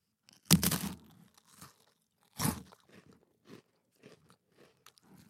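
Freeze-dried gummy bears crunched between the teeth: two loud, brittle bites followed by softer crackly chewing in a few scattered bursts, alone without talk.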